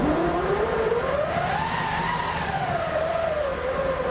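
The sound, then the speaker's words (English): Hand-cranked orchestral wind machine, a canvas-wrapped wheel in the percussion section, being wound up: a loud, continuous whooshing roar whose pitch climbs, then sinks slightly and levels out, sustained without a break. “Plus, back in the percussion section, we hear the wind-up of a wind machine.”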